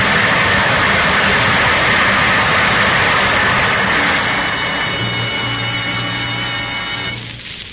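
Steady engine roar of a plane coming in to land, a loud, broad drone that holds for several seconds and then gradually eases off, with a low steady hum showing through near the end.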